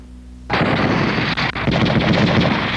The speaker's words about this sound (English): All right. Fire at will.